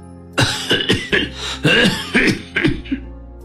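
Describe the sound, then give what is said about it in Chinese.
An ailing elderly father coughs in a fit of several harsh, throaty coughs in quick, uneven succession, loud and raspy, easing off toward the end. “司马谈咳了起来”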